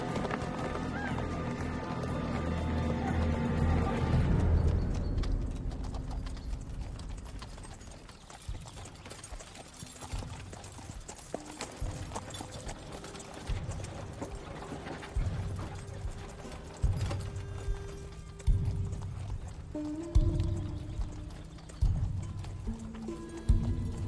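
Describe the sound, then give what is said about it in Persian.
Hooves of several horses carrying riders approach in a rhythmic clip-clop. The beats grow louder and more distinct through the second half. “چند تا سوار داره میاد. سوارا داره میاد. سوارا داره میاد. چند تا سوار داره میاد.”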